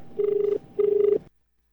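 A telephone rings in two steady, buzzing, trilled bursts at a mid pitch, separated by a short gap, before falling silent.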